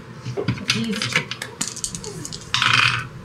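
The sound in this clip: Dice clatter across a table during a tabletop role-playing game, making many quick, bright clicks and rattles of uneven rhythm, with a denser, louder burst of clattering near the end.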